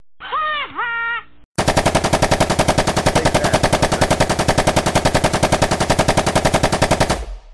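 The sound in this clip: Machine-gun fire erupts in a long, rapid, unbroken burst of loud gunshots after a brief spoken voice, the shots hammering in a fast, steady rhythm for several seconds before cutting off.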